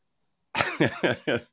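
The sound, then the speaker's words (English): A chesty cough: four rough, harsh coughs in a steady rhythm, with a fifth just starting at the end, loud and alone after a moment of silence. “Got a bit of a chesty cough, so if I go on mute every now and then, you know why.”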